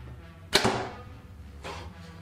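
An arrow is released from a bow shot without a sight: one sharp, loud snap with a brief whooshing decay, followed about a second later by a fainter second sound.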